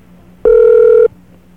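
Telephone ringing tone heard while calling an automated line: a single steady, clear ring burst of just over half a second that stands alone against a quiet line.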